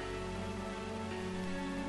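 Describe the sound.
Rain falls over a camp as a steady, faint hiss, even and unbroken throughout, with a low sustained drone beneath it.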